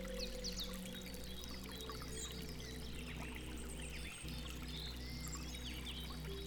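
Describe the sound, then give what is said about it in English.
A stream flowing through a forest makes a soft, continuous wash of running water, quiet and even, while small birds chirp faintly above it. “As the stream meandered through the forest”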